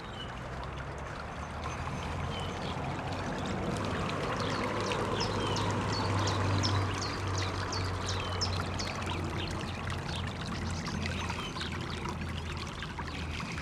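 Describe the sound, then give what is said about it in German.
A small brook flows steadily past old ponds, making a faint, continuous babble and trickle of water. “Der Küttelsbach fließt hier immer noch her.”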